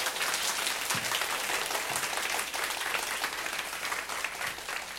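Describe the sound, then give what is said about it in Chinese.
Applause from a church audience during a service: dense, steady clapping at a moderate level throughout, with no single voice standing out. “给神掌声好吗？好，谢谢你们，掌声太小了。”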